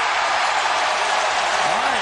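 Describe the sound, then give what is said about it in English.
A basketball crowd roars in a frenzy as the Timberwolves mount a comeback against the Knicks, a dense, loud, unbroken wall of cheering noise that holds level from start to finish. “This crowd in a frenzy now about a comeback by the T-Wolves.”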